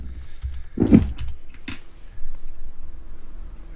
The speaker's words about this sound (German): Von daher schreibe ich mal im Chat, ob er das mitbekommt.